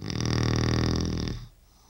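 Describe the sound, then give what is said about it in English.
A man snores in his sleep with one long, loud, rasping snore full of buzzing harmonics that lasts over a second. It then cuts off abruptly and leaves near quiet. “And he's snored like this for how long?”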